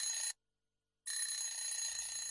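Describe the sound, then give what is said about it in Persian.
A telephone rings in shrill, bright electronic bursts, stops for a short silence, then starts ringing again. “تلفن قطع میشه و دوباره زنگ میخوره.”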